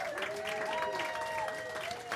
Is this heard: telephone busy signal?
no

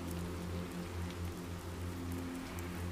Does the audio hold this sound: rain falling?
yes

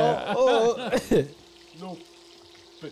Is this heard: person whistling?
no

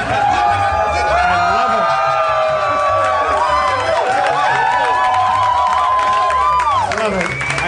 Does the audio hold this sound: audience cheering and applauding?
yes

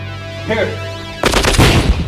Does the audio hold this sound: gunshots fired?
yes

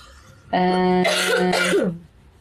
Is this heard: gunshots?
no

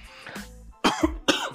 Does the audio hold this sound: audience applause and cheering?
no

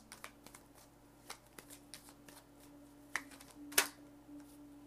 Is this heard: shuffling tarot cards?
yes

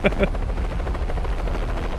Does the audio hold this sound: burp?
no

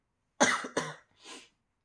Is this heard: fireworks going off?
no

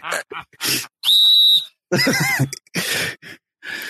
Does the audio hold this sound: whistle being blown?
yes

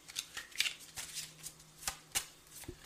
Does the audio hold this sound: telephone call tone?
no

